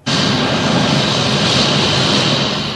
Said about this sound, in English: An army of aircraft assembled to battle the Alley Lake wildfire from above.